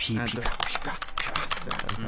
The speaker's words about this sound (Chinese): 当然我今天用的是个红轴的键盘，敲起来不响啊。 我这个红轴怎么就这么响呢？